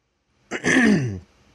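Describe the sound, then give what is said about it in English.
A single throat clearing, a short, gruff rasp that rises quickly and lasts about half a second before cutting off, alone against silence. “Forgive me, I got something in my throat here.”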